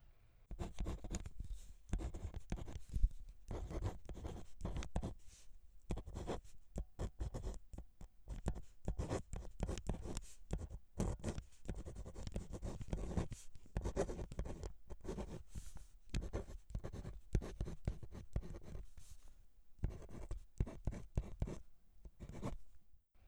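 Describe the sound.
A pen or pencil scratches across paper while a coordinate geometry diagram is drawn by hand, many quiet, irregular strokes and scrapes in a continuous run with no talking.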